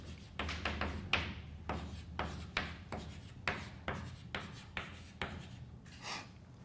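Writing on a board during a maths lesson: many quick scratchy strokes and light taps in an irregular rhythm, each a short dry burst, with no talk.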